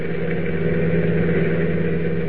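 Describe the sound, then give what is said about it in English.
A car engine drones steadily from inside the moving car, a constant low hum and rumble at an even level with no breaks and no talk. “Clark Kent, having been led to believe he is being taken to the executive offices of the CNL Railroad for an exclusive story, is riding in a car driven by one of the Wolf's henchmen, a man named Kino.”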